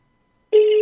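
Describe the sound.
An outgoing phone call's ringback tone: a single steady, mid-pitched electronic ring starts partway through and holds at even loudness to the end.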